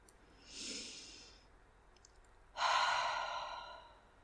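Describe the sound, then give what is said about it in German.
Slow, deep breathing during a stress-release relaxation exercise: one soft drawn-in breath, a pause, then a longer, louder breath out that gradually fades. No talking. “Einatmen. Und beim Ausatmen ganz bewusst loslassen.”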